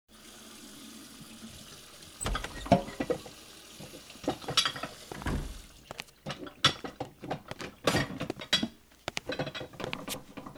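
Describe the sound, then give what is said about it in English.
Running water and clinking, scrubbing clatter as someone washes whatever needs cleaning at a sink, with many short knocks and splashes over a steady flow. “What are you washing? Whatever I can find that might need cleaning. And why are you doing that? Because I clean when I'm upset.”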